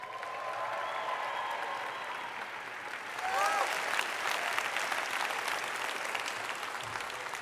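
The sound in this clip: Church audience applauding to welcome a guest speaker: a steady crowd of clapping hands that swells noticeably louder partway through and then holds at that level until the end.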